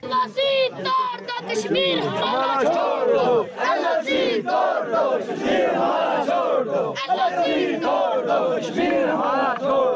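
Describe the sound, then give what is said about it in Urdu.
Liberation Front supporters on a march chant slogans for freedom and the removal of barriers, many loud voices in continuous, overlapping rhythmic calls. “March میں شامل liberation front کے حامی آزادی اور رکاوٹیں ہٹانے کے حق میں نعرے لگاتے رہے۔”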